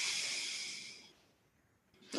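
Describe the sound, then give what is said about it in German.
Air is breathed out through one nostril during alternate nostril breathing, a long soft hiss that fades away over about a second, followed by quiet and then a short, sharper breath at the end. “Dann atmest du durch das rechte Nasenloch ein, verschließt es mit dem Daumen und atmest links wieder aus.”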